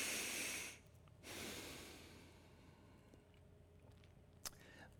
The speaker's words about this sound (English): So what do you do when you breathe through your nose? You shut your mouth, you purse your lips, and you...